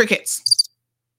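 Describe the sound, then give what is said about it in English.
A cricket chirping sound effect: a brief run of a few high, rapid, pulsed chirps right after a short bit of voice, then silence. “Crickets.”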